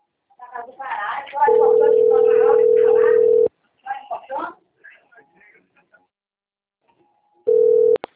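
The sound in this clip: A steady single-pitch telephone tone sounds while a call is being placed, in two bursts, one lasting about two seconds and a brief one at the end. Voices talk before and between the tones.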